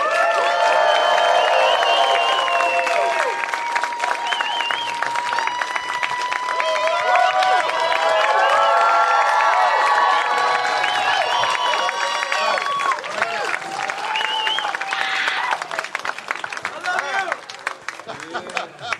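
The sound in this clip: An audience cheers and applauds as a Latin alternative band is brought on stage at a Los Angeles radio station show, a loud, sustained roar of clapping, whoops and whistles that thins out near the end.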